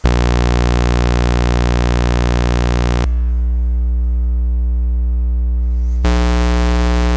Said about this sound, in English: So we'll have a saw, triangle, square, and then some noise.